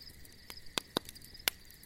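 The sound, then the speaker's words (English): Faint crickets chirp by a campfire in a thin, steady high trill, broken by a few sharp, crisp pops. “and the crickets in the background.”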